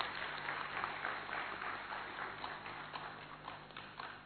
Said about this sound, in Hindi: अब तक जिन जिन को आपने सुना उन सबके लिए जोरदार तालियां बजाकर।